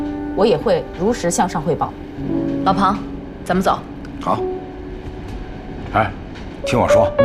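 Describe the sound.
A moving passenger train gives a steady low rumble beneath people talking.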